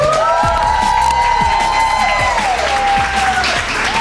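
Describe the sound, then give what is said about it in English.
A live audience at the Wormack in Charlotte's Plaza Midwood section cheers and applauds at a show, making a dense, loud and steady wash of clapping and shouting that stays strong throughout. “We are live at the Wormack in the Plaza Midwood section of Charlotte tonight with a live audience. And they are alive. Look at them.”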